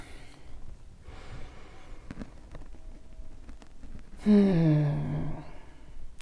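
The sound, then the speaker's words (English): A slow, deep breath in and out, soft airy breathing through the nose and mouth, ending in a louder exhale with a slight voiced sigh that drops in pitch. “Take a deep breath with me, please.”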